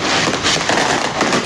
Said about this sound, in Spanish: Y al menos uno logra ver que no es solo una persona que está lanzando fuegos artificiales. O sea, son varias.